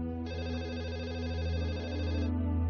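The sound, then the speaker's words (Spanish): A telephone rings with one continuous electronic ring lasting about two seconds. The tone is steady and bright with many harmonics, set against a low background hum, and nobody speaks. “Y a las 6:30, tal y como esperaba, sonó el teléfono.”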